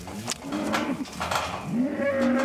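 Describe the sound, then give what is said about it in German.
Calves bawl after being separated from their mothers during ear tagging, several hoarse, overlapping moos that run almost without pause, strained and fairly loud. “Nicht nur die Zange piekst, auch der Trennungsschmerz. Die Kälbchen wissen ja nicht, dass sie gleich wieder zu Mama können.”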